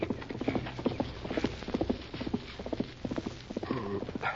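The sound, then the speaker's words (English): Horse hoofbeats clop along a trail that passes a cove into town as a rider goes by. Many rhythmic, steady clip-clop strikes continue throughout at an even pace. “heard hoofbeats on the trail that led past the cove into town. Someone's riding along the trail to town, Tonto.”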